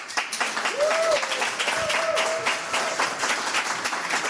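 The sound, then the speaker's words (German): Audience applause and cheering as a musician is welcomed on stage: dense, steady clapping and crowd noise that fills the whole stretch without a break. “Bitte machen Sie richtig viel Lärm für Ujay Yara.”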